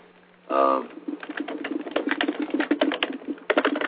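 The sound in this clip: Rapid typing of notes on a keyboard: many quick, uneven clicks in a dense run that continues to the end, with a short tonal burst just before the typing starts.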